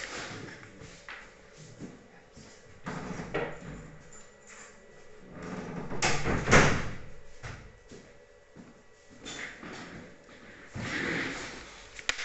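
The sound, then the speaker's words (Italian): A door being opened, heard as a few broad knocks and rattling bumps with one louder burst near the middle, set against faint steady background noise. “Hanno aperto la porta mentre io parlavo così e mi ha disturbato un po'”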